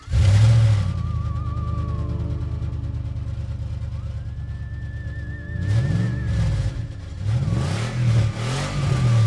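Car engine revving: a steady mid-pitched engine drone with a thin whining tone gliding above it gives way to several loud, rhythmic throttle surges that rise and fall in pitch, with no voices.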